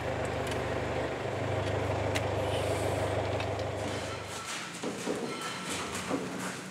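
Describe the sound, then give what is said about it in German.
A field sprayer for small crop-protection trial plots being driven: a faint, steady low engine drone that cuts off partway through, leaving soft scattered clatter afterward. “Das ist eine Feldspritze im Fahrradbetrieb, wie man das mit dem Rad hier so schön sieht.”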